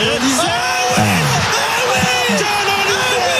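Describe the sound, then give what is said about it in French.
French national team fans cheering Zidane's ball control, with voices whooping and yelling in rising and falling shouts over a dense, steady crowd roar. “Le public des Bleus qui acclame un contrôle de Zinedine Zidane.”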